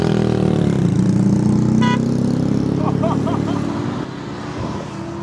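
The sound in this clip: Car engine drone from Gómez's Utopía arriving: a loud, steady low rumble with a slight pitch drop early on, easing somewhat toward the end, with brief faint voices mixed in.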